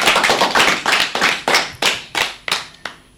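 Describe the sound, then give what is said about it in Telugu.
Rhythmic clapping welcomes a sixth-grade student to the stage at a school program. A steady run of loud, evenly spaced claps plays alone, the last few spreading apart and trailing off. “చప్పట్లతో స్వాగతం.”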